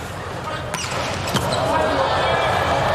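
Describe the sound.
Bornaut serves in a volleyball match against Slovenia. A couple of sharp ball strikes cut through steady crowd noise and a commentator's voice.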